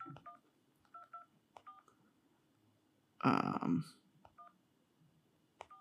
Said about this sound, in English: I'm putting it, calling the number, putting it on speaker.